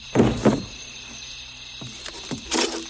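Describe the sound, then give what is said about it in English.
A door is shut, with a few dull thuds and knocks spread over a few seconds, moderately loud against a quiet background. “She shuts the door.”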